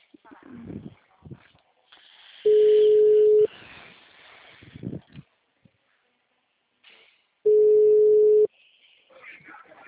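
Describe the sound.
Ringing tone while placing a phone call: two steady mid-pitched tones, each about a second long and several seconds apart, with a voice talking quietly before, between and after them.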